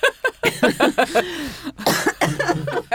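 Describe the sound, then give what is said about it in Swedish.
A hangover cough comes as a long run of harsh, loud, throaty bursts in an irregular rhythm, with raspy breaths between them. “Nu kommer den. Bakishosta. Fyllehostan.”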